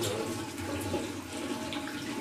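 Running water pours steadily while the feet are washed during ablution, a continuous rushing stream heard alone.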